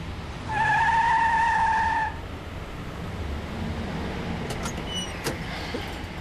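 Brakes squeal on a vehicle hauling sand as it is waved to a stop. A loud, steady high whine lasts about a second and a half over low engine rumble, then the engine settles with a few faint clicks.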